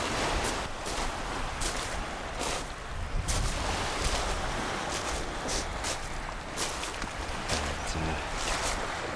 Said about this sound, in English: Just a couple of gulls going over the sea, lapping at these seaweed-strewn rocks.